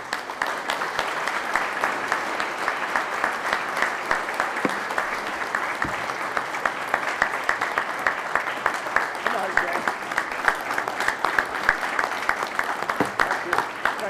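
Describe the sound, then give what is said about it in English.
Sustained audience applause welcomes a retired Army general, president and CEO of the Association of the United States Army, at an event in Vermont; dense, even clapping continues loudly for about fourteen seconds. “Give him a big round of welcome to Vermont.”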